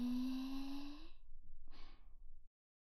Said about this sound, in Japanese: 吐いて、なんか深呼吸ってさ、 落ち着くよね。